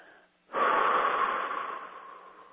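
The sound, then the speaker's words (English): A deep breath out: one long, loud exhale rushing out steadily and tapering off gradually toward the end, heard alone. “And then take a breath out.”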